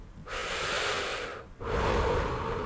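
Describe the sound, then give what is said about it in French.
A slow breath in and then out: two long, airy rushes of air separated by a short pause, fairly loud and with no talk. “Inspire. Expire.”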